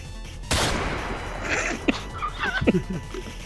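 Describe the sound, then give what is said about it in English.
A single loud gunshot rings out in an audio drama, a sharp blast that decays into a lingering rumble before voices speak over the fading noise. “Dex! You've been shot!”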